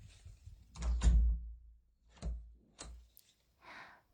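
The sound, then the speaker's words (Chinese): A door is shut and locked: a few dull thuds and knocks with short mechanical clicks, moderately quiet and separated by brief pauses, ending in a soft rustle. “那我把门锁上，你不许出去。”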